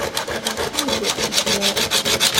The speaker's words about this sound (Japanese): そこに紙やすり、これでこうどんどんどんどん削っていくんですけども、 紙やすりで削れちゃう、 はい、あの滑石っていう石なんですけども、はあ、非常にこう柔らかい石でして